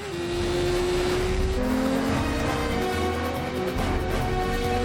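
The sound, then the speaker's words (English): A car speeds along a highway in Morocco during a high-speed driving stunt, its loud, continuous engine roar carrying a sustained whining tone that steps to a new pitch partway through. “This is high speed driving, no pads, no helmet.”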